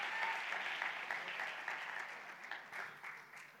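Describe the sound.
Audience applause welcomes a speaker to the stage: a steady, dense patter of many hands clapping, fairly soft, with a few sharper claps standing out here and there.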